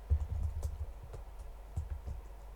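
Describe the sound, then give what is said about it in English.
Soft typing on a computer keyboard: faint, irregular clicks and taps scattered across a couple of seconds, with no voices. “Sorry that I have to type so much.”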